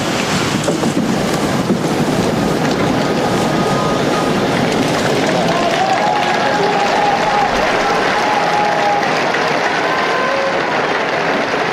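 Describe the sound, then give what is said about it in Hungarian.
Applause from the crowd of pilgrims closes Pope Francis's general audience, a loud, continuous roar of clapping that holds at an even level throughout. “Mai napon is tapsal ér véget Ferenc pápa általános kihallgatása.”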